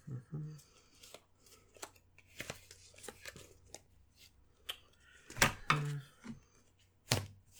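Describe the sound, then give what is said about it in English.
Playing cards are taken from a deck during a betting card game: a scattered series of crisp, sharp snaps and brief slides at an irregular pace, with faint voice sounds now and then. “Yeah, she's taking three cards.”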